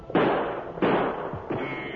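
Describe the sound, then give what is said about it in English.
Gunshots during an outlaw attack on a stagecoach, three sharp, loud cracks at roughly even intervals, each trailing off in a short, noisy decay. “I'll try a quick shot.”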